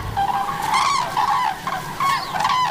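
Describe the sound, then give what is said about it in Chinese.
Common cranes calling in a harvested crop field, with parents and two young feeding: loud, honking, trumpet-like calls in a few overlapping bursts over a steady background hiss. “灰鹤偏爱刚刚收割过农作物的田地。灰鹤夫妇的两只幼鸟加入了这场盛宴。”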